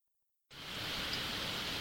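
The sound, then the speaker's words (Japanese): Heavy rain sets in abruptly after half a second of silence, then holds as a dense, even hiss with no voices. “工事が終わった途端にあいにくの大雨である。”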